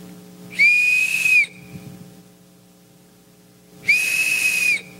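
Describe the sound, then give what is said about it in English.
Two shrill blasts from a small handheld whistle, each just under a second long and held at a steady high pitch, separated by a pause of a few seconds over a low steady hum. “little bitty whistles. I got 300 of them.”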